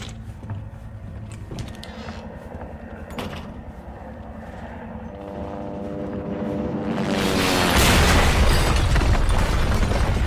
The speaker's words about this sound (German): Hubschrauber stürzte ganz in seiner Nähe ab.